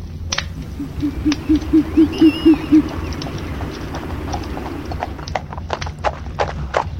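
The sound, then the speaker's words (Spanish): A horse at a long trot approaching a ranch, heard as a quick, even run of hollow hoofbeats for a couple of seconds over low background noise. The hoofbeats fade into scattered faint clicks. “Evaristo Pellejero retornaba a su rancho al trote largo”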